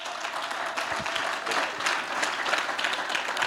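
A church audience claps to acclaim the Lord during a sermon, a steady, moderately loud patter of many hands that swells and dips slightly over a few seconds.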